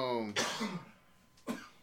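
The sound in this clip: Two sharp, harsh coughs, the first right after a brief voiced sound and the second a shorter burst about a second later, both loud against a quiet background.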